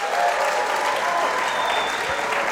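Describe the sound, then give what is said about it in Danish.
Audience applause rings out as dense, steady clapping from a crowd, sustained at an even loudness throughout. “Giv lige Kasper en hånd.”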